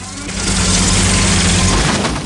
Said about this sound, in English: accelerates in the tank.